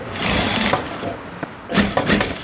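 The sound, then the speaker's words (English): A sewing machine runs steadily as a man works at it in a workshop in Denmark. Its busy mechanical whir holds fairly even, dips briefly midway, then picks back up. “It's 8 o'clock in the morning and already busy at work at his sewing machine is Ahmed Bakir from Syria.”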